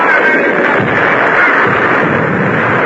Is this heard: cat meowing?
no